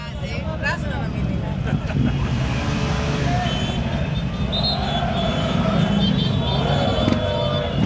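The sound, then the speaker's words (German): A football team bus drives into a stadium in Thessaloniki before a playoff match. A continuous vehicle engine drone sits under a dense, steady wash of crowd noise and voices from fans. “Der Paok-Mannschaftsbus fährt ins Tumba-Stadion im Herzen von Thessaloniki ein und die Fans sorgen bereits für Stimmung.”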